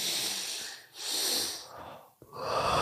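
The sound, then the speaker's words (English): Deliberate breathing in a breathing exercise: three long, airy, hissing breaths separated by short pauses, loud and close, with no talking. “You breathe in and then you do another one. Whoa. And then you breathe out.”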